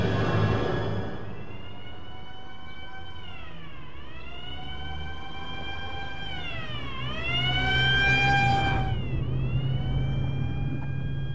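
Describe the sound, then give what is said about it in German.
An ambulance siren wails as the vehicle drives, its pitch sweeping up and down in repeated long glides over a low engine rumble, holding fairly steady in loudness and growing slightly louder near the end. “Befinden sich in einem Krankenwagen, Frau Grüning. Er bringt Sie zur Klinik.”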